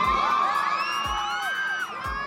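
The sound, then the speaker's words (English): A crowd of fans cheers and whoops for Johnny Depp outside court, a continuous excited roar of many voices with shrill rising yells layered on top. “he's greeted like a rock star, with fans cheering like it was a movie premiere.”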